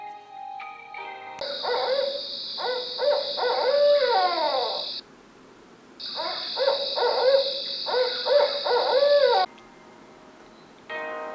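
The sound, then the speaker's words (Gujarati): An owl hoots in two long bursts of wavering, sliding calls with a steady hiss above them, separated by a short quiet gap. “એક દિવસ આ હંસની પાસે એક ઘુવડ આવ્યું”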